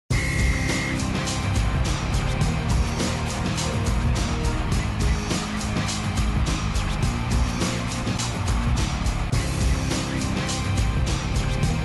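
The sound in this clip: A car travels the road back to Longreach close to midnight. Its engine and tyres give a steady hum that continues without a break.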